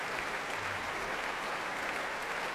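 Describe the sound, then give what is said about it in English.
Applause from a concert hall audience, joined by the Bournemouth Symphony Orchestra, as a soloist returns to the stage after a concerto. It is a faint, even wash of many hands clapping that holds steady throughout. “Well, I'm sure the audience here at the hall will be encouraging Eilish to return, and here she comes. Every member of the Bournemouth Symphony Orchestra also applauding.”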